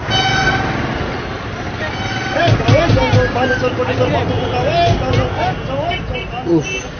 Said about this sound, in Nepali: हो भने यो सहरमा मान्छे र गाडीको भिड चाहिँ असाध्यै छ। लो अब चाहिँ गाडीको भिड कम भयो जस्तो छ, छिटो बाटो काटिहालौँ।